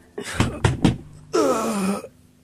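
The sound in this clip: Three loud knocks on a door in quick succession, followed by a voice calling out.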